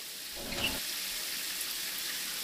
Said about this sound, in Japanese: お湯出てきたで。